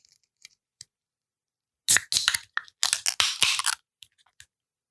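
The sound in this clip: A beer can is cracked open for a tasting. A few faint ticks come first, then a dense burst of crackling clicks and hiss lasts over a second before fading back to near silence.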